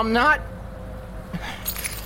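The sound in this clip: Keys jangle in a few light, bright metallic chinks after a brief voice, over a faint steady hum.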